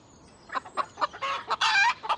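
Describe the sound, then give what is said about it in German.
Small chickens cluck in a quick run of short, bright calls, with a few longer squawks near the end. No voices. “Dit is niet kapoeres, dit is chickens. Beautiful kleine chickens. En ze maken eggs, you know? Eggs.”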